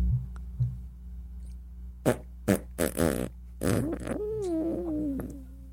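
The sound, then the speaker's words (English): Fart sound effects from a body about to be reanimated in a comedy game: a few short, low, sputtering bursts, then a longer wavering, squealing one toward the end. “That's the sound of a fart coming out of one of the bodies right before it's getting reanimated.”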